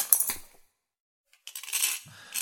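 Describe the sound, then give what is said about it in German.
A knife is thrown over and lands on stones, giving bright metallic clattering in short bursts, with a silent gap between the first clatter and the later rattling. “werf mir mal dein Messer rüber, damit ich das Beschwörungszeichen in die Steine einritzen kann.”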